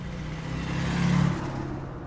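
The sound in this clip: A car driving off, heard as a faint, low engine hum that swells to a peak and eases back down.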